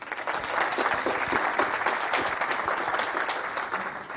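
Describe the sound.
Audience applause welcoming a speaker to a talk on bringing open source skills to more people. Dense clapping holds steady and loud for about four seconds, with no voices over it.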